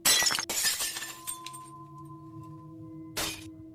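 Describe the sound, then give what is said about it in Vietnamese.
Furniture and objects fall and break in a living room with loud glassy crashes and shattering at the start, followed by lingering ringing tones, then another sharp crash near the end. “Lúc đó, ở trong phòng khách lại truyền đến tiếng đồ đạc đổ vỡ.”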